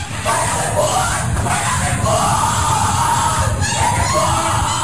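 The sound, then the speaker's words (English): Yelling fills a Skull and Bones initiation ceremony: a loud, continuous mass of shouting voices and crowd noise with no clear breaks. “What you're hearing is the first recording ever made of the Skull and Bones initiation ceremony. It has never been broadcast before.”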